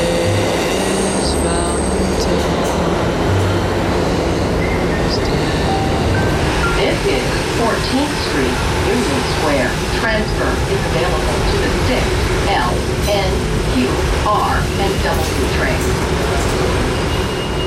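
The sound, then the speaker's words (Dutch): A subway train at the Union Square metro station: loud continuous rumble with metallic wheel squeals and screeches over the whole span, with voices mixed into the din. “En ik ben op het metrostation Union Square.”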